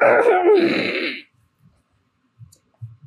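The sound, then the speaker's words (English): A person clears their throat in one harsh, raspy burst lasting just over a second, followed by near silence with a few faint small sounds. “And I gotta clear me throat.”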